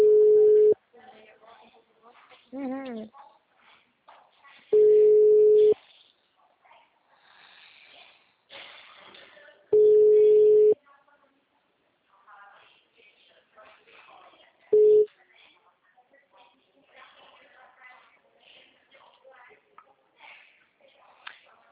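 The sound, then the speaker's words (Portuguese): Telephone busy signal: four steady, mid-pitched tones of about a second each, spaced roughly five seconds apart, with people talking in the gaps between them. “O número ocupado.”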